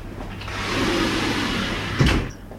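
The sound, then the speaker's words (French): A window being closed: a soft sustained sliding rumble that ends in a short, solid thump as it shuts, then quiet. “Est-ce que je peux fermer la fenêtre?”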